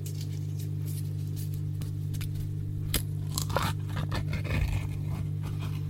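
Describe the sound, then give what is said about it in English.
A foil lid is peeled off a pot of strawberry jelly, and fingers are pushed into the jelly, with crinkling, scraping and soft sticky noises over a steady low hum. “There, I've took the foil lid off it. There's my fingers in the jelly.”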